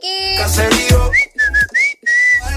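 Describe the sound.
High, clear whistling. A run of short whistled notes that slide slightly up and down ends on a longer held tone, after a brief burst of other harmonic sound.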